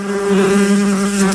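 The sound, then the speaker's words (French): Bumblebees buzzing in spring: a steady, low droning hum that wavers slightly in tone, heard alone with no voices. “Parce qu'avec le printemps, on a le retour des abeilles, mais aussi le retour des bourdons.”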